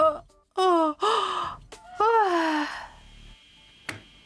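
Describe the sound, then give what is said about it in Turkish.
A person yawns in a recording being watched. There are a few drawn-out, breathy vocal moans, each sliding downward in pitch, with brief pauses between them. “Canın mı sıkıldı? Ben esnemişim. Müşterinin önünde.”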